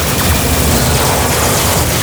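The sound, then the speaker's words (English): Mini cannons all firing at once in a battle scene, a dense, loud, continuous barrage of booming blasts with no gaps and no voices. “The mini cannons all went off”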